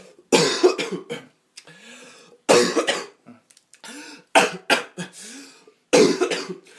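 Coughing and retching from a person: a few loud, harsh coughing fits over several seconds, with rough, strained throat sounds between the bursts.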